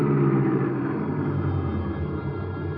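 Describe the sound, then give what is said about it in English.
A car driving along a road, heard as a steady low engine rumble that holds evenly throughout with no voices. “So I drove on past Paradise Inn to Pat's cabin across the road.”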